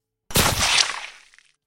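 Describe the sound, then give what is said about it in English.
A single pistol gunshot, fired right after a quick draw from a holster: one sharp, loud crack that ends in a long ringing tail, fading over about a second, with no voices. “Virat pulled the trigger before the syndicate goon could even shout out in surprise.”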